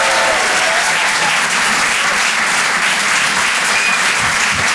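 Dense, even applause fills the Rire et Chanson comedy club as the audience cheers a comedian leaving the stage. The clapping stays loud and steady throughout, with no voices over it.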